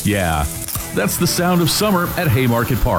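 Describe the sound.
Food sizzles at a ballpark concession stand at Haymarket Park, a steady frying hiss running beneath a speaking voice for the whole clip.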